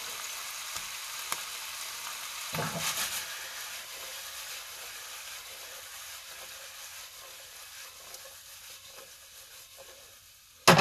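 Torn sage leaves and rosemary sizzle in olive oil in a pan, a steady, soft hiss with a few faint crackles and a sudden louder knock at the very end.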